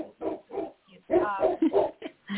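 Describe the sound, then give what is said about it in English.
A dog makes a run of short barks and whimpering yips, mid-pitched and fairly loud, including a drawn-out whiny note. “that dog. You have something to say.”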